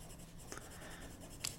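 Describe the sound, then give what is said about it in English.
Faint pen-on-paper writing as dream details are noted in a dream journal. Soft, scratchy strokes run throughout, with a couple of brief sharper scratches and no voices. “So you scribe the details of the dream in your dream journal.”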